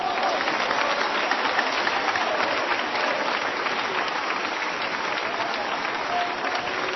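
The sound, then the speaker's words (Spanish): An audience at a church service applauds, a dense, even clatter of many hands clapping that holds steady for several seconds without a break. “Vamos a dar un aplauso al Señor.”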